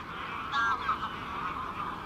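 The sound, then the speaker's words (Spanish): Tens of thousands of wild geese call over wintry marshes on a cold, overcast morning, their honking merged into a dense, steady chorus with a few clearer calls briefly standing out. “Las marismas son muy grandes y todo suena en la distancia. El griterío de decenas de miles de gansos silvestres,”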